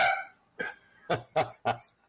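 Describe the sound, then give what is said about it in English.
Dogs barking after someone knocks on wood: a handful of short, sharp barks at uneven intervals, fairly faint and heard on their own. “I got to learn not to knock on wood. It's superstitious and I don't need to do it. And it makes my dogs bark like there's somebody at the door.”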